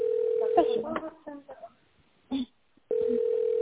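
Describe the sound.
Telephone line tone while a call is transferred: a steady single-pitch tone plays, breaks off for a stretch of talking, then returns at the same pitch and level.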